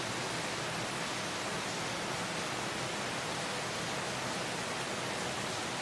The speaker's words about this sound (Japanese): 傘がないともう完全に濡れてる感じですねあと雨粒が大きいかな少し